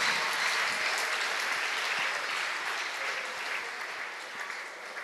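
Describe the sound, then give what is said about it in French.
A church audience claps for the Lord in steady, dense applause. It holds an even, full level for about five seconds and eases slightly toward the end. “4 hectares of land, clap for the Lord.”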